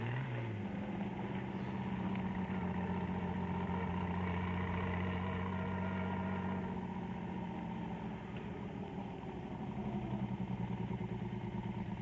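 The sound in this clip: Car engine idling steadily as the driver pulls over for petrol, a low, even hum with a light mechanical clatter that shifts tone slightly partway through, with no talk over it.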